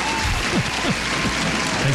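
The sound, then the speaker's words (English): A studio audience applauds with steady, dense clapping throughout, and voices rise faintly above it. “The studio audience arrived and wanted to give you a rousing round of applause for being a winner.”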